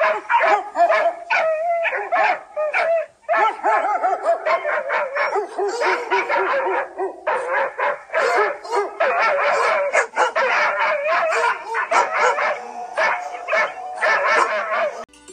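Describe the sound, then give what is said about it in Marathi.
Stray dogs in a lane bark loudly: many rapid barks and sharp yips, some whimpering, overlapping almost without pause throughout. “आता भरीला गल्लीतली सारी इरसाल कुत्री देखील जोर जोराने भोंकू लागली”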